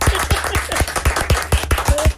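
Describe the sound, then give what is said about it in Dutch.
Applause in a radio studio: brisk, fairly even hand claps that keep a quick, steady pulse for a couple of seconds. “Ik vind dat we daar wel even een applausje mogen voor laten horen hier in de studio.”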